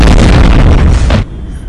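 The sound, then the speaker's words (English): Weapons fire on command from a military crew in gas masks targeting a fast, low-flying craft: a loud, dense roaring blast sustained for about a second, then cut off abruptly into a quieter rumbling tail. “Ready to fire! 21 meters! 24 meters! Projection 24 degrees! 24 degrees! Fire!”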